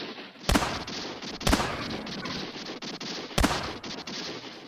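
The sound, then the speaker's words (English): Gunfire in a radio drama shootout: three loud, sharp shots crack at uneven intervals over a steady hissing wash of noise, with no talk. “Let them have it, boys. He's right. They'll start shooting. So will I.”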